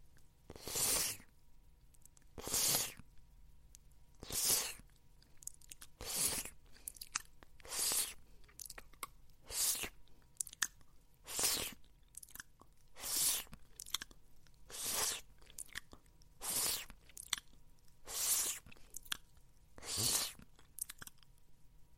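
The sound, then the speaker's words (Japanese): Wet licking and slurping on a saliva-soaked ball gag held in the mouth: many moist, smacking bursts repeat in a steady rhythm, quiet and without talk. “口に加えたままのギャグボールの唾液を、 舐め取っちゃおう。”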